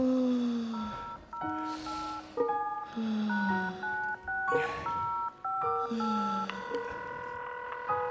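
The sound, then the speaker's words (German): A telephone call is dialed as many short electronic tones step through different pitches in quick runs, repeating in several groups. “Ich rufe da jetzt mal an.”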